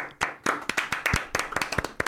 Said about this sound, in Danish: Jamen, stort tillykke til mig. Skal vi lige give mig en hånd?